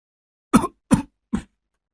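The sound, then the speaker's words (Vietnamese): Coughing used as a ghost-story sound effect: three short, loud, low coughs with a throat-clearing rasp, evenly spaced and heard alone with no speech. “Tiếng ho khủ khủ, lẫn cả tiếng điệu hò ơ, cứ văng vẳng trong đêm.”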